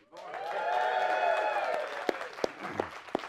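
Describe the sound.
A church audience cheers with raised voices and applauds loudly, the roar swelling and then thinning out to a few scattered claps.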